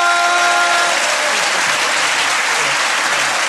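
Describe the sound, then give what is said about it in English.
Loud audience applause after a stand-up comedy set, a thick continuous wash of many hands clapping that stays strong and even from start to finish. “Ladies and gentlemen, give a massive round of applause”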